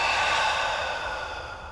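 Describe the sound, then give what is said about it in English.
A long deep breath is released as one steady, airy hiss that fades slightly toward the end, heard alone without talk. “let's please take a nice deep breath in all together and let it go.”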